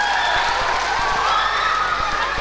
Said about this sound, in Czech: Výborně, tleskáme. Děkujeme.